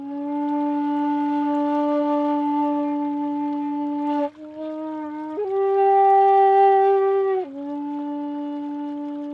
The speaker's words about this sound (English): That's the sound of the shakuhachi, a Japanese flute being played